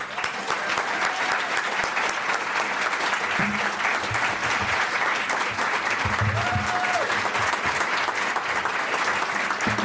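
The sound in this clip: Audience applause welcoming a speaker to the stage at a talk: continuous, even clapping from a crowd that stays steady throughout, with faint murmurs underneath.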